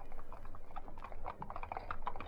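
Hoofbeats of a horse pulling a four-wheeler cab clop in a quick, steady rhythm: many sharp knocks over a low rumble, with no voices.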